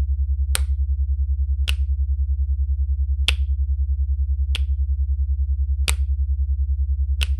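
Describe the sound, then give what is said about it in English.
Six sharp, crisp finger snaps land at uneven intervals over a steady, pulsing low hum. “you hear her snap with her other hand”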